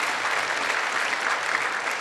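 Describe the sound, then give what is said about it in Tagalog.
Audience applause during a church sermon: a short, even burst of many hands clapping together, steady in level from start to end and without any voice over it. “ba't kayo pumapalakpak kung gano'n tayo matagumpay?”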